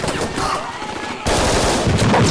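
Gunfire shot from the windows of a flat, rapid loud bursts packed tightly together like machine-gun fire, growing heavier in the second half.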